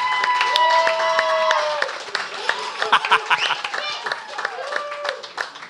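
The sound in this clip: Audience applause and cheering as a person is called up at a live show, with dense clapping, whoops and many voices over the claps, strongest at first and then thinning into scattered claps.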